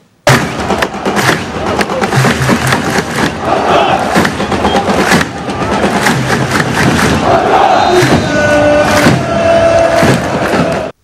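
Jordanian football fans watching a match at dawn in the ancient Roman amphitheatre in Amman, a loud, sustained crowd roar of shouting and chanting, punctuated by many sharp thumping bursts.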